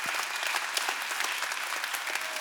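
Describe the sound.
Audience applause fills the whole stretch as dense, even, rapid clapping from many hands. It holds steady at a moderate level with no voices rising above it.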